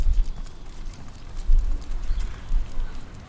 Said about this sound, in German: Ja, okay, dann einmal traben.